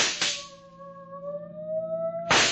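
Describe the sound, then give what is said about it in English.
Two sharp gunshots ring out in a radio drama car chase, one at the start and one near the end, with a steady droning tone humming between them. “Hey, they're shooting back.”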